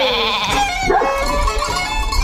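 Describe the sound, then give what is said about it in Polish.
Sheep bleating in the mountains, giving a few wavering, nasal, tonal cries over a steady background. “Tylko ja, góry i owce.”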